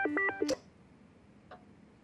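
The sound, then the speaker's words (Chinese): Telephone call being answered: a few short electronic tone beeps, then a sharp click as the handset is picked up, followed by near silence and one faint later click. “哎，我接个电话。哎，郑文打来了”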